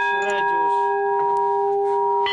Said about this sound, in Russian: И вот уже мелодичный звук колокольного оркестра под опытным управлением 15-летнего звонаря разносится по всему селу.